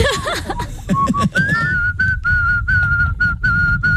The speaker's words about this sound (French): Tu siffles comme un vieux. Tu siffles comme un pépé.